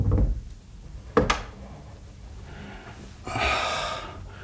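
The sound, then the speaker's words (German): A door to a bedroom being closed: a low rumble opens, then a single sharp knock-like thud of the door shutting, followed later by a soft breathy rush of noise. “Komm, mach die Tür zum Zimmer deiner Mutter wieder zu.”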